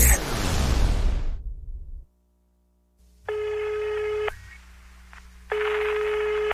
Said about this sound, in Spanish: Llamada está siendo desviada al buzón de voz.